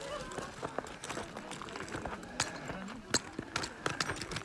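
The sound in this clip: Footsteps climb a flight of steps, mixed with taps of a walking cane set down ahead of each step. Faint, irregular thuds and clicks sound alongside quiet voices.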